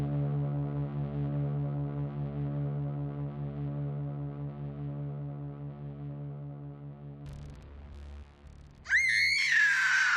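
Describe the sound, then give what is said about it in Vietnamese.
A person lets out a sharp, high-pitched scream near the end during a Halloween night game in a cemetery, bursting in after a long, low droning tone cuts off. “An Huy nghe rõ có tiếng một người hét, sau đó là một trận cười giòn tan”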